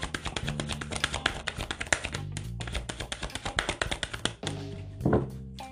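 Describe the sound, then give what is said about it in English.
A tarot deck being shuffled as cards jump out of it: rapid, papery flicking taps in a steady stream, fairly quiet, ending in a slightly louder flutter. “Every time I read, I always get just jumping cards. That's what I get. All right, Taurus. Two cards popped out of this damn deck.”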